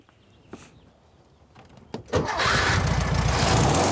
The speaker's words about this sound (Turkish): sesi güzel bir Volkswagen motoru gibi çıkıyor